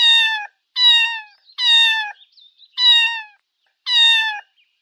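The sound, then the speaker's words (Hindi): A cat meows five times, each a clear, high, bright call at a fairly even pace, with faint short chirps in some of the gaps. “Cat.”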